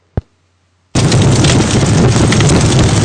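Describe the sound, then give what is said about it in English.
Fire crackling: one sharp pop, then after a brief pause a loud, dense wash of crackles and hiss that carries on unbroken to the end. “fire's got lots of crackles and pops and clicks”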